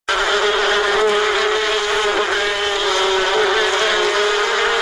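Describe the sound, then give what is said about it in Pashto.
Honey bees buzzing at a bee farm in Kunduz, Afghanistan: a dense, steady drone of many wings holds at an even loudness throughout the whole clip, with no voices. “په کندوز کې د شاتو د مچیو فارم لرونکي د شاتو له تولید څخه راضي دي”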